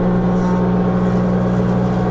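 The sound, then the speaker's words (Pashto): Woodworking machines running in a furniture workshop, where wood is cut and planed, give off a steady, loud, low motor drone with a constant pitch and no break. “څوک په ماشینونو لرګي رکوي، څوک په همدی ماشینونو لوړی ژورې هواروي”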